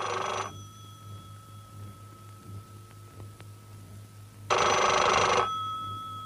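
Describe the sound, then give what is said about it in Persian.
A telephone sitting on a desk rings its bell in two bright, rattling bursts, one at the start and one a few seconds later, with a quiet steady hum in between. “تلفن روی میز صمیمی زنگ میزنه. صمیمی گوشی رو بر میداره.”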